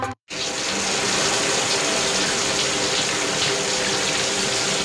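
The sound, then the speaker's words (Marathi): Water runs from a tank that has been left on. After a brief silent gap at the start, a loud, steady rushing gush continues without a break. “अरे अर्धा तास झाला पाणी वाहतंय, टाकी बंद कर।”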